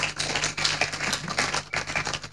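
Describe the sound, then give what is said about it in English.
Rapid hand clapping from someone during a sermon: many sharp, quick claps in a fairly steady rhythm over a couple of seconds. “Someone is clapping, so.”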